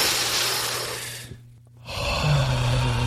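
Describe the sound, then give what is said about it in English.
A person takes a deep breath: a long, loud, noisy inhale, a brief silent hold, then a long breathy exhale. “Let me take a deep breath here for 1 second. Everybody take a deep breath.”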